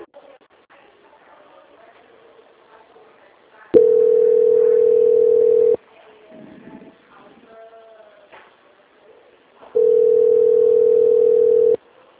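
Steady telephone line tone plays while a call is being transferred: two long, unbroken tones of about two seconds each, separated by a stretch of faint low background sound.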